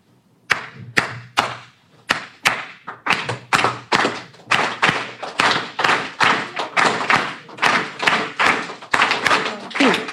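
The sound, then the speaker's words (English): Sharp wooden-sounding taps beat out a Cuban clave rhythm, opening with a clear three-then-two pattern of five strokes. After that, many denser, evenly accented claps and taps carry the pattern on steadily and loudly to the end. “It has this beautiful thing called clave. It sounds like this.”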